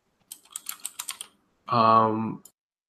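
Typing on a computer keyboard while looking up a card during a card game: a quick, uneven burst of several crisp, clicky keystrokes, followed after a short pause by a steady, humming harmonic tone.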